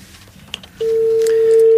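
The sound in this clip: A telephone call being dialled: a few soft clicks, then a single loud, steady tone of about one second that cuts off abruptly.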